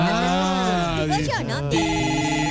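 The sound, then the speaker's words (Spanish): A telephone rings with an incoming call, sounding as a steady melodic ringtone of bright, repeating tones that continues across the whole stretch. “Dame un segundito, que me está llamando. Dame un segundito, por favor.”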